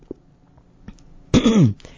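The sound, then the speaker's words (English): Throat clearing by someone with a frog in the throat: one short, voiced, rasping burst whose pitch slides downward, loud and alone after faint background sounds. “I have a frog in my throat this morning.”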